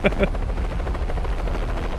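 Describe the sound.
A helicopter in a film scene chops steadily, its rotor producing a loud, continuous rhythmic thumping with a low, rumbling engine roar beneath.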